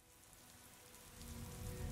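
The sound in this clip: Heavy rain pours down outside a small eatery, a dense, steady hiss of drops striking surfaces that swells louder through the second half, with no voices.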